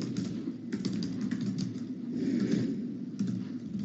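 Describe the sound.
Faint, rapid clicking of typing on a computer keyboard during an online meeting, the irregular taps sitting over a steady low hum.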